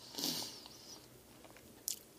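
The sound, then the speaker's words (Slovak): A bite into a sticky sweet treat: a crisp crunchy bite at the start, followed by faint soft chewing and one more brief sharp crunch near the end. “A teraz moment, ja si musím hryznúť do svojej sladkej mňam. No, výborné to je, keď máte zalepenú hubu od sladkého.”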